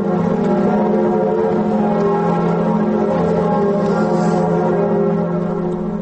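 Notre-Dame cathedral bells ringing at noon in Paris in mourning, a dense, loud, continuous peal of overlapping sustained tones that holds steady throughout, with no talk.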